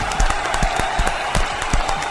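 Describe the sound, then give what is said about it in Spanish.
Applause from a small group after a children's story reading: a few clearly separate hand claps rise over a steady background wash in an uneven, scattered rhythm, at a moderate level, with no talk. “¡Aplausos!”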